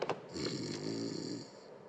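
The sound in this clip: Snoring from a man asleep on a sofa: a couple of short breathy bursts, then one long, rough, rattling snore that fades out.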